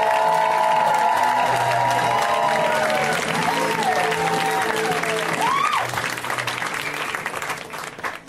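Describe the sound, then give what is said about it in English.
Loud applause and cheering from a comedy show audience welcoming a comedian to the stage, dense and sustained for about six seconds before thinning out toward the end. “let's hear right now for Joel Atwill. Give it up for Joel.”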